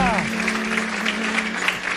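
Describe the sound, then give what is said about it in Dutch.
An audience applauds three contestants with a steady patter of clapping. A low, sustained tone runs underneath. “De bergdrui gaat aan en dan wil ik nog een groot applaus voor deze drie strijders.”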